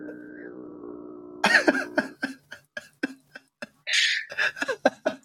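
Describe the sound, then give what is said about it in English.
Mongolian throat singing demonstrated by one voice: a brief low, buzzing drone with a ringing overtone above it, which then breaks off into a run of short, choppy vocal bursts. “But one thing we always came back to was Mongolian throat singing. We thought it was like so fascinating. People sound like a didgeridoo, and when done right, you can actually sing two notes at once.”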